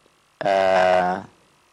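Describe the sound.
A telephone tone sounds on a call-in line that has dropped: one steady, buzzy electronic tone lasting under a second, loud and alone, then cutting off abruptly.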